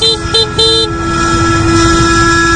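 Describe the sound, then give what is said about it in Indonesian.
Car horn honking on a street as a driver reacts to a pedestrian stepping into the road: a few short, bright toots followed by one sustained blast, loud over a rough, low traffic rumble. “Refleks aku mencet klakson.”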